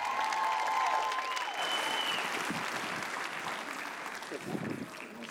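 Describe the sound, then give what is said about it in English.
A church audience applauds a speaker being welcomed to the stage: dense, steady clapping fills the whole stretch, easing slightly toward the end. “Please give it up for Miss Nicole Dickey.”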